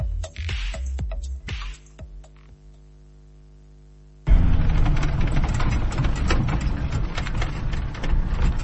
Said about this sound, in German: Der weiße Jeep fährt auf einer langen Straße durch die ägyptische Wüste in der Nähe von Dashur.